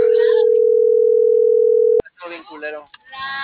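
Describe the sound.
A telephone tone sounds after a call cuts off: one steady, loud, low-pitched tone for about two seconds that stops abruptly. A voice then starts speaking.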